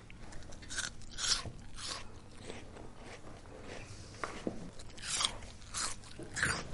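Crunchy chewing and biting as children eat an apple and crispbread at a breakfast break: many irregular crisp bites and grinding chews at a steady moderate level, with no talk.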